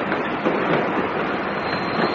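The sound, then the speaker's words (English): A stopping train to Plymouth arrives at Newton Abbot station with a steady, loud, broad rumbling roar that holds throughout. “Stopping train to Plymouth! Stopping train to Plymouth! This is Newton Abbott!”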